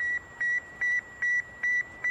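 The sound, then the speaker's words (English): Radio beeps come from the Sputnik 1 satellite, a tiny aluminum sphere with four whisker-like antennas launched in 1957: six evenly spaced, steady, fairly high electronic tones in a strict on-off rhythm over a faint hiss. “The tiny aluminum sphere with four whisker-like antennas sent the beep,”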